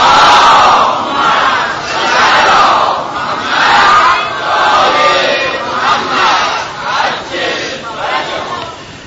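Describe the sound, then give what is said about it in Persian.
An audience loudly recites salawat in unison, massed voices rising and falling in several surging waves that fill the whole stretch. “و اول مظلومه عالم زهرای مرضیه سلام الله علیهما و مظلوم کربلا آقا امام حسین با همه عزیزانش و تعجیل در فرج امام زمان صلوات بلند بفرستید.”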